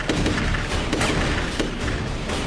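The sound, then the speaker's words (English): Rifle gunfire from a Steven Seagal action film cracks and booms in a rapid, dense volley. Loud shots blur into a thick, noisy roar that stays high throughout. “Are those like just badly CGI'd bullets coming out of his rifle? Yes. Yes, that is what it is.”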